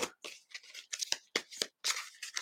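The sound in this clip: Thick cards are shuffled by hand in many short, quiet, papery scraping bursts with an uneven rhythm and brief gaps between them, with no talk.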